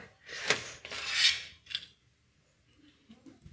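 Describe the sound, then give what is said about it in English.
Pencil scratching across paper while drawing in the dark, a few rasping strokes in the first half, then near silence with only faint light rustles. “Okay, I'm drawing a picture in the dark.”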